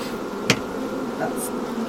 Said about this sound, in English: Some bees land on you and sting you a little bit